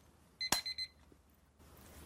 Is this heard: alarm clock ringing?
yes